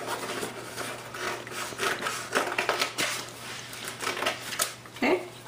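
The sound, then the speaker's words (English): Scissors cut through folded construction paper, a run of crisp snips and papery rustles repeating at an uneven pace, moderately loud throughout. “I'm just going to fold that in half. And then where we have scored it, I'm just going to go ahead and cut it. It doesn't have to be perfect.”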